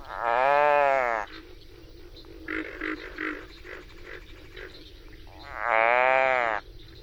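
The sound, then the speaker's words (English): A captured frog gives its distress call: two loud, drawn-out, strongly harmonic wails, one at the start and one near the end. Quieter, broken croaking sounds fall between them. “I understand you got up close and personal with one of these frogs. Oh, yes. Very often, if you capture one, and you don't have to hurt it or squeeze it, but it'll give a distress call that's really quite a remarkable sound.”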